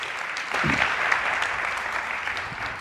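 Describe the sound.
An audience at a church gathering applauds to welcome a speaker. The clapping swells in after about half a second and stays as a steady, dense patter to the end.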